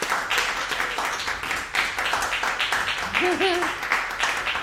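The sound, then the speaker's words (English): A crowd claps and applauds to welcome a guest, a dense, steady wash of clapping that runs throughout with voices briefly heard through it. “So please put your hands together and welcome on my first guest to the podcast, Jenna Friedman.”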